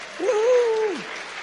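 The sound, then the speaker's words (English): Applause welcoming the children at a kids' church service, a short stretch of steady clapping with a held vocal tone ringing over it. “Welcome to the kids' church. Let's give them a hand.”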